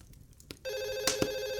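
A telephone rings with a bright electronic tone that starts after a short, quiet stretch of faint knocks and then holds steady and buzzy to the end, with a couple of soft clicks over it.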